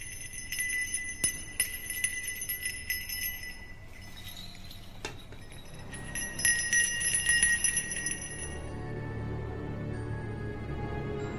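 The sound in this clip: Ringing of an ornate bell with strange patterns, heard as faint, shimmering metallic tones with scattered clinks that swell briefly and then fade into a low rumble.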